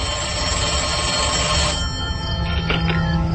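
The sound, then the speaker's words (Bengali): A telephone rings again shortly after a call has ended. The continuous electronic ringing sits within dense, broad background noise, with no voices. “Phone রাখার কিছুক্ষণ পরেই আবার বেজে উঠল phone.”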